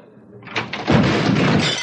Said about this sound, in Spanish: Los agentes sacan sus armas y se acercan a la puerta. La abren de una patada y reducen al camarero.